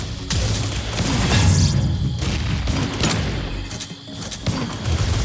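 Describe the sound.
Video game gunfire rings out as a player fights many enemies with a gun, with many loud, heavy shots and booming bursts repeating irregularly over a constant noisy din.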